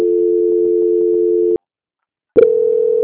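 A steady telephone tone sounds during a call transfer on a bank's customer-service line. It holds for about one and a half seconds, breaks off into a brief silence, then resumes after a click.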